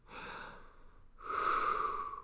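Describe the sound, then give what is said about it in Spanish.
Deep breathing during a guided relaxation exercise, heard alone without talk: two long, airy breaths, the first softer and the second louder and stronger with a hissing, rushing tone. “Respira. Respira.”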